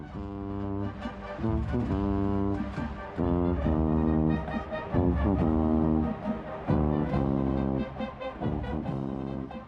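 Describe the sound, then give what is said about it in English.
A solo tuba plays a run of deep, round, sustained notes in a steady rhythm, each note rich in low harmonics and fairly loud, with short breaks between phrases. “Consider what happens when you single out one instrument, the tuba. It sounds like this.”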